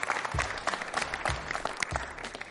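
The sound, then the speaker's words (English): Audience applause welcomes a guest, a steady wash of clapping that continues throughout with a few heavier bursts. “Give me a hand. Help me welcome Joe Cardona, the long snapper from the Patriots and the Naval Academy.”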